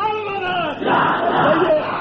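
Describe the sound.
Crowd at a political rally in Pakistan chanting slogans: a single drawn-out voice leads at first, then a loud mass of voices bursts in and keeps roaring together at full strength until the end.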